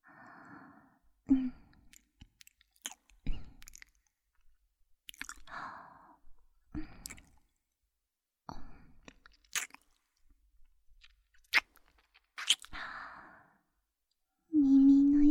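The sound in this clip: Soft mouth sounds of gentle nibbling and sucking come as intermittent quiet, wet clicks and smacks separated by short pauses, with breathy sighs between them.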